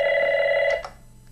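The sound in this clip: A telephone rings with an incoming call from a caller: one steady, bright electronic ring tone that holds for under a second, then cuts off into near silence.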